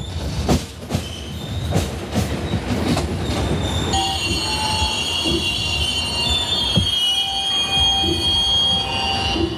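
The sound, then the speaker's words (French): Train pulling into Durban station, a continuous heavy rumble and rattle of carriages with high, thin squealing from the wheels and occasional clicks on the track, steady and fairly loud throughout. “Donc on approche de la gare de Durban.”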